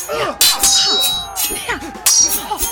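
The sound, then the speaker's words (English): Swords clash in a sword fight between a Luxemburger and a Hessian bad guy: several bright metallic clangs and ringing strikes in quick bursts, with short ringing tails between the hits. “The Luxemburger parried my thrust. I most certainly did, Hessian bad guy. Prepare for the sword fight of your life. En garde!”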